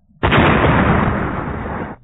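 A grenade explodes in a video game: a loud, rumbling blast that starts abruptly, holds steady, then slowly fades before cutting off.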